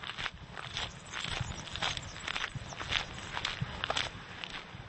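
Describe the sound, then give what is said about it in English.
Footsteps walk steadily down a road through muddy fields on the way to an Easter market, many crunching steps in an even rhythm over a constant outdoor hiss. “I was walking down a road surrounded by muddy fields, heading for an Easter market taking place at the community.”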